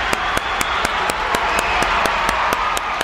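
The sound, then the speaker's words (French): Audience applause for health-care union members, with the crowd urged to stand: a dense, steady wash of clapping punctuated by sharp, evenly spaced claps throughout. “On applaudit Nancy Bédard encore et tous les syndicalistes du travail de la santé. Oui. Bravo. Debout tout le monde.”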